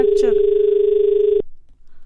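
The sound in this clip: A telephone tone from an incoming call on a radio phone-in health programme: one steady, even electronic tone held for about one and a half seconds before it cuts off. A voice is heard briefly near the start.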